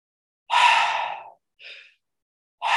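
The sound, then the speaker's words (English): Breath drawn in through the mouth, an airy rush: one long breath, a short softer one after a pause, then another beginning at the end, with no voice. “I take an inhale, actually through my mouth. Let me do that again.”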